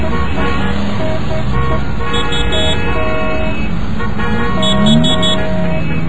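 Commuter road traffic rumbles steadily while car horns toot at scattered moments, several short tonal honks rising above a dense, even roar with no talk.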